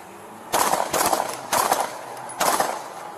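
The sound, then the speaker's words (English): AK-47 gunfire directed at police officers: four short, loud bursts of rapid automatic shots separated by brief pauses, with no voices. “Central, we got a man with an AK-47, he's shooting at us.”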